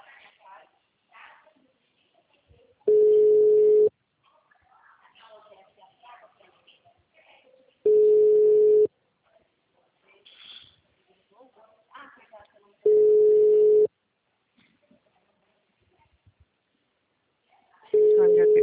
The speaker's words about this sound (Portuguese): Tô ligando, tá chamando aqui também.